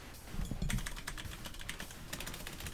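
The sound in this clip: Someone types a search on a computer keyboard: many quick, irregular key clacks, soft and alone with no talk.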